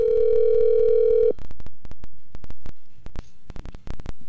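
A steady telephone dial tone while a call is being placed, a single even hum that cuts off after about a second and gives way to a series of sharp clicks and line noises.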